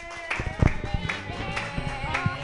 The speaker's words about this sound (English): Keep clapping for Hillary Lannan